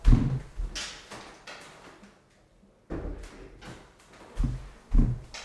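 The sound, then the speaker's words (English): A door being shut, with a series of several heavy low bumps and clunks, some louder than others, separated by short pauses and with no talk. “Actually, I've got to shut the door because there's a bit of yapping going on out there.”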